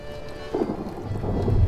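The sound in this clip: A thunderstorm with heavy rain: a steady hiss of downpour under a low thunder rumble that swells louder partway through.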